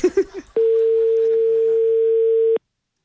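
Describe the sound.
A phone rings while a call is placed: one steady, even electronic tone at mid pitch, loud and unbroken for about two seconds, then cut off. It follows a few brief voice sounds.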